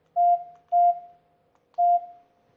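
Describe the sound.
Three keypad tones sound as a telephone is dialled. They are steady, mid-pitched beeps, evenly loud, with a longer pause before the third, and no voices.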